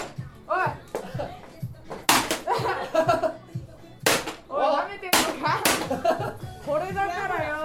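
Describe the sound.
A bat strikes a Roomba robot vacuum in several sharp, loud whacks at uneven intervals, while people talk and exclaim between and over the blows.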